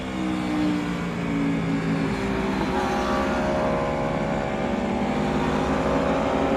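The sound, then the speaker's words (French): An Aprilia V4 motorcycle engine on a busy race circuit whose track has just dried gives a loud, continuous, layered drone, its tones shifting gradually as it runs. “c'est génial le V4. Parce que oui, cet Aprilia, sa particularité c'est son moteur V4.”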